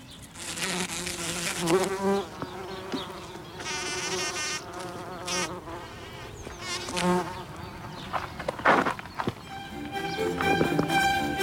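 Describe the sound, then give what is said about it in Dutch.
Bumblebees buzz around wild flowers, a steady low droning hum that swells and fades as the insects move, continuing unbroken through the whole stretch with scattered other faint outdoor sounds beneath. “Nu luisteren we nog even. Waar is nog een hommel die mee wil werken? Doe nog eens even je best. Ja, hier.”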